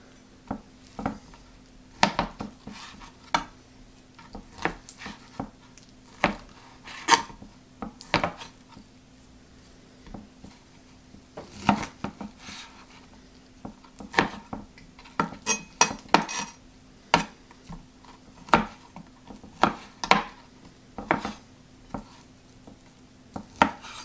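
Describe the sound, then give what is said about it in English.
A knife cuts through chuck steak, giving many short, sharp clicks and scrapes in an irregular rhythm. The sounds are fairly quiet and heard alone, with no talk. “This is like, I think this is chuck steak. So this is like cutting it like nothing, you know?”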